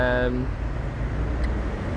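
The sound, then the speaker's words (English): A lorry passing along High Street in Enderby gives a steady, loud, low rumble that fills the whole stretch, with a voice speaking briefly at the start. “Sorry about the lorry in the background.”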